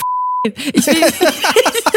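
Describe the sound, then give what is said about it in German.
A censor beep cuts into German talk as a single steady, high electronic tone lasting under half a second. Speech resumes right after it. “ich muss das alles piepen.”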